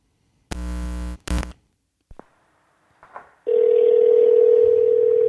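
A telephone call being placed: two loud bursts of handling noise, a few faint clicks, then a loud, steady telephone tone that holds unbroken to the end.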